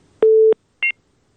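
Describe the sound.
Telephone line tones of an incoming call: a steady low tone lasting about a third of a second, a short gap, then one brief higher double-pitched beep.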